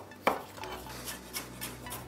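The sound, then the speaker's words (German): A knife slicing peeled apples and pears into evenly thick slices: one sharp click at the start, then a few soft, scattered taps and scrapes, all faint. “Ich nehme den Apfel oder die Birne und schneide mir da gleichmäßig dicke Scheiben runter.”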